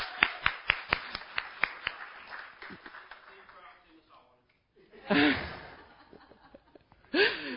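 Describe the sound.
An audience at a Christian mission gathering claps briefly for a board member, a run of quick, sharp handclaps that fades within about two seconds. After a quiet stretch come a couple of short vocal bursts.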